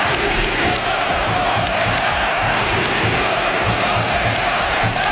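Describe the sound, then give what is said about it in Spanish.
A football crowd roars at Mestalla in Valencia during the Trofeo Naranja match, a loud, dense and unbroken wash of voices that holds steady throughout. “En el Trofeo Naranja hemos tenido seguramente el gran sonido, al menos uno de los grandes sonidos del fin de semana.”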